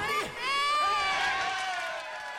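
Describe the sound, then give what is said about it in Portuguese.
A young child crying: a sustained, wavering wail with a bright, tonal voice that rises in loudness, holds, then tapers off toward the end. “Para de chorar, querido.”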